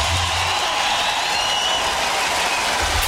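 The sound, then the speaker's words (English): Applause from a concert audience welcoming a performer on stage: a dense, steady wash of clapping that holds at an even loudness from start to finish without a break. “Keep those hot hands together. Make welcome, please. Mr. David Gilmour.”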